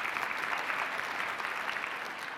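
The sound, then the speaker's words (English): An audience gives a round of applause for a man at a talk, a steady, even wash of clapping from many hands that stays level throughout. “Jody, give him a round of applause.”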